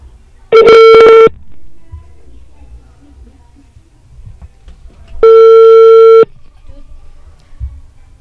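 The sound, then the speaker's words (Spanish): Telephone ringback tone heard while placing a call: two long, loud, buzzing mid-pitched tones about four seconds apart, with only faint low rumble in the gap between them. “Estamos llamando.”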